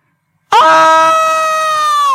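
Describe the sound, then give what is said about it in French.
A cry for help from other rooms of a house: a sudden, loud, sustained scream with a steady high tone that holds for well over a second. “on entend un cri d'appel au secours venant des autres pièces de la maison. Le cri se termine en un hurlement haletant.”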